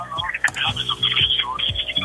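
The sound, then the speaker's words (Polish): A radio plays music in the background of a call-in phone conversation, its tones and regular beat running beneath a voice carried over the telephone line. “Ściszymy trochę radio na początku, ok? Bo tak niewygodnie nam się będzie rozmawiało.”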